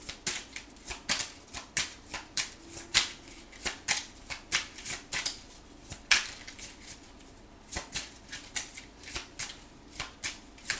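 Tarot cards are shuffled in a quiet, rhythmic run of many short crackling riffles, each burst following closely on the last, with only a brief pause partway through.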